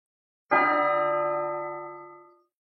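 A melodious bell rings out in one clear strike, bright and resonant, with a tone that sustains and fades smoothly over about two seconds.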